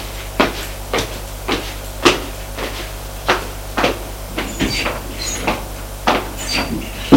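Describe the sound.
Wooden knocks and clacks from an apartment door being closed and locked, many sharp, irregularly spaced impacts of moderate loudness over a quiet background, with no talking.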